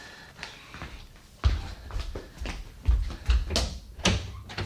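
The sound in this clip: A house door being opened, heard as a few dull low thumps and sharper clicks spread across a few seconds, with light shuffling between them and no voices.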